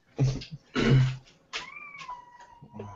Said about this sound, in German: war das eine Katze?